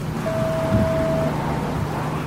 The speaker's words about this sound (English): We're standing under a metal awning that's shielding us from the persistent raindrops.